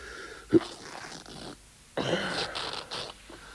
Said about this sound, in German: Mann, was produzieren die jetzt nur für einen Stoff? Reißt wie Papier.